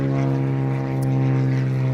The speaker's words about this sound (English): Sorry, small plane overhead. Small plane overhead. Stand by.